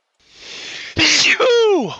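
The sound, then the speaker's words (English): A single human sneeze: a drawn-out rising inhale, then a sharp explosive burst, then a voiced tail that falls in pitch. “Bless your little heart. I've been sneezing quite a bit lately.”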